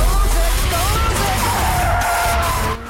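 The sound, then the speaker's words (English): A car handbrake-drifting on a mountain road, its tires squealing in a wavering, sliding tone over a steady engine roar. The sound stays loud throughout, then cuts off abruptly near the end. “They move to the mountain road, gear change, handbrake on, and drift.”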